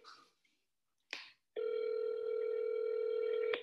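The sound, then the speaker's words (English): A telephone call ringing on the line, a couple of brief clicks followed by one steady electronic ring tone lasting about two seconds. “We also have a special phone call to make. I don't know if she'll answer, but let's hope.”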